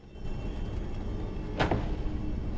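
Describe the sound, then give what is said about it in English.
A door slams shut with a single sharp thud partway through, set against a steady, low rumbling background. “slams shut the door”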